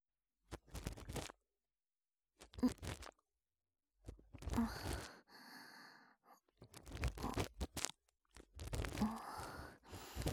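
Earwax is scraped from the shallow part of an ear during ear cleaning, heard as soft, crunchy, scratchy scraping in several separate bursts broken by near-silent pauses.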